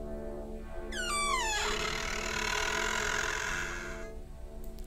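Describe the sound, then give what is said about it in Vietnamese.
Creaking of a dry, unoiled hinge as a back door slowly swings open. A descending squeal comes first, then a long raspy grinding that lasts a few seconds over a steady low hum. “Cánh cửa sau lưng quán từ từ mở. Ấy, cái tiếng bản lề lâu ngày khô dầu rít lên ken két.”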